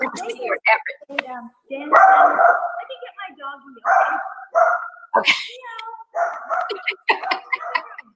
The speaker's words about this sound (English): Our dogs are looking. My dogs are coming.